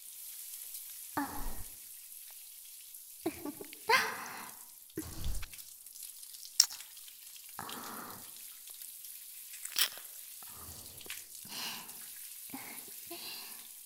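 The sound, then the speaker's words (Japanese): Water poured to rinse a person after scrubbing during a bath. Faint, intermittent splashing bursts come and go several times over a quiet background. “ちゃんと脇のあたりもしっかりこすってお流しいたしますね。”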